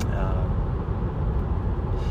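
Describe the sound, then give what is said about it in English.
A car driving slowly on a fairly empty highway gives a steady, dense low rumble of engine and road noise that holds at an even level throughout, with no distinct passing events. “I guess I'm doing some foolish things, like recording audio while driving, but at this moment I'm driving really slowly on a fairly empty highway.”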